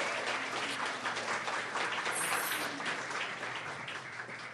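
Audience applause welcoming a guest onstage at a live recorded event, a dense, even clapping that holds steady throughout and eases slightly toward the end.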